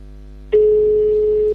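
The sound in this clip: Single ringback tone on an unanswered phone call to a prize winner, a steady mid-pitched hum lasting about a second after a short quiet stretch.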